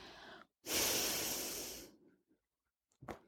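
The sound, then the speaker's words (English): Slow breathing in a prayer exercise of exhaling and inhaling. A long, loud, breathy exhale lasts over a second, with brief quieter breaths before and after it and silence between them. “We traditionally exhale and inhale with each phrase.”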